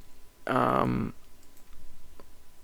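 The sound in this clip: Computer mouse clicks while a website's US version is chosen. A brief burst of voice comes first, then a run of soft, evenly spaced clicks follows.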